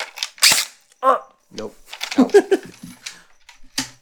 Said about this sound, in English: That's what you keep playing with is a BB gun.